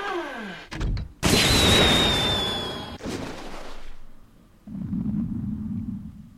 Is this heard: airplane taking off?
no